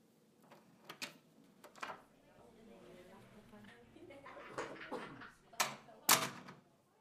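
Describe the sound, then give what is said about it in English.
A light switch clicks in a grimy, half-used room with greasy wallpaper and dirty bulbs. A sharp, bright click stands out near the end among softer knocks and rustles. “The room is roused by the click of a switch.”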